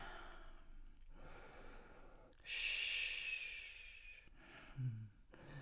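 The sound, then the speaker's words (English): Heavy breathing of a person catching their breath: a few soft, quiet breaths, with one long, airy exhale standing out in the middle and a brief low, sigh-like sound near the end. “Shh. That's it. Catch your breath.”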